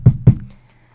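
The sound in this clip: Two knocks on a door, a quick, evenly spaced pair of dull, hollow low thuds, followed by quiet.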